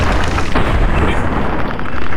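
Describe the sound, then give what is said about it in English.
Video game gunfire aimed at a giant ant: a loud, booming burst that rolls into a sustained heavy roar rather than separate crisp shots. “Maybe we're gonna go with guns here. More ants. Okay, I'm gonna shoot him in his little ant head. Take that.”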